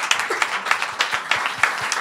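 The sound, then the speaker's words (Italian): Audience applause at a live evening event: a brief, loud burst of dense, steady clapping from many hands, running for about two seconds. “22 dicembre, un applauso di nuovo.”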